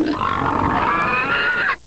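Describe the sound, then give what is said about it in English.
A pig grunts in one long, rough, nasal call that holds steady for nearly two seconds before stopping abruptly. The pig is one of the hogs raised at a private school's farm. “Fat boy is a P.I.G. pig.”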